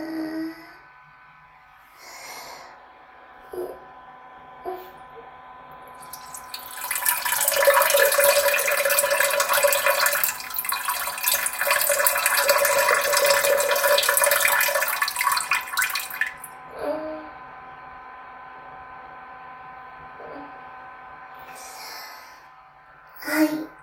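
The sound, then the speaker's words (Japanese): A person urinating into a toilet: a steady splashing, hissing stream lasting roughly nine seconds, framed by quieter stretches with faint small sounds before and after. “今座ったので、ウィーン。おしっこしまーす。”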